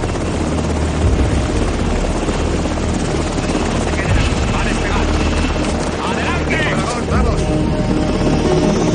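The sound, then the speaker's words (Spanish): A helicopter lifts off as soldiers and villagers move away from it. Its rotor roar is loud and continuous, with a heavy low thumping that holds steady throughout. “Los soldados y el reducido grupo de aldeanos junto a la doctora se alejan del helicóptero que comienza a despegar.”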